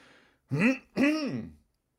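Someone clears their throat in two harsh, gravelly voiced bursts in quick succession, heard alone after a faint breathy sound.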